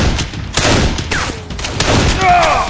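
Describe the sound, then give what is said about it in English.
Rapid rifle gunfire from a Winchester in a Western gunfight, with several sharp cracks blurring into a dense, continuous roar of shots. “Bull holstered his pistol and picked up his Winchester. He aimed at the side of the building where he figured Parker was.”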